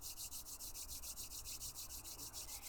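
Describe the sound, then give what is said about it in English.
Palms rubbing briskly back and forth during a pranic energy breathing practice, making a dry, steady swishing friction sound. The strokes repeat in a fast, even rhythm for the whole stretch. No one speaks. “From here, we'll begin to rub our palms back and forth, generating some heat and activating the energetic meridians within.”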